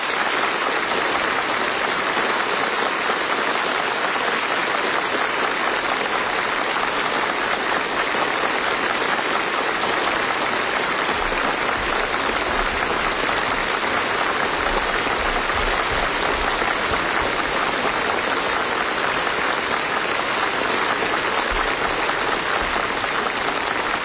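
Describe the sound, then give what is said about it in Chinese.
Long, enthusiastic applause fills a large hall after an oath-taking ceremony, a loud, unbroken wash of many hands clapping at a steady level for the whole stretch. “习近平向全场鞠躬致意，现场爆发出长时间的热烈掌声”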